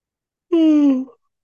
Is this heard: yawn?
yes

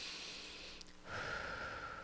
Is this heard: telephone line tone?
no

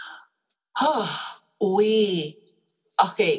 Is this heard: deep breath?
yes

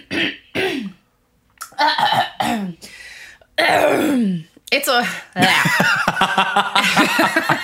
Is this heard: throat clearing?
yes

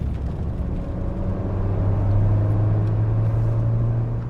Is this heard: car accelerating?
yes

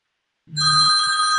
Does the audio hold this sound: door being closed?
no

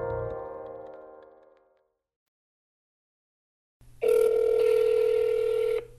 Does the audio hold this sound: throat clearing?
no

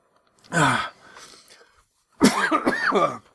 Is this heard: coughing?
yes

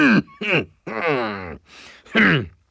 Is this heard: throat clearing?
yes

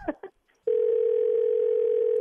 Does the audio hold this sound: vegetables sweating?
no

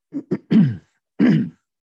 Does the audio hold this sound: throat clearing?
yes

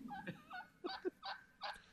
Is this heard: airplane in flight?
no

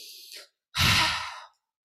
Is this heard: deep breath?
yes

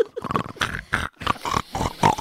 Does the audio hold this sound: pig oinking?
yes

